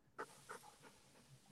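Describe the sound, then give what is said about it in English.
Faint dog panting in a room, a few soft breathy puffs spaced irregularly, the first two a little louder, with no voices. “And I have my dog here, and you know how the dogs are like really sensitive.”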